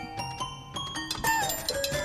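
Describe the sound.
Bright, bell-like notes ring out from a small toy xylophone or little toy piano playing in the background. Several separate struck tones sound at uneven intervals, each ringing briefly with clear overtones.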